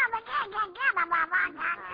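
Quacking from a pet duck in a kitchen, a rapid run of nasal, squawking quacks at a fairly steady, moderate loudness, voiced by a person imitating the duck.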